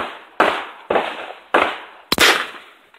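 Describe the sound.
Sharp gunshot bangs from two pistols and a shotgun being fired at a shooting range ring out one after another, each a loud crack with a fast-decaying tail, the last two coming in quick succession.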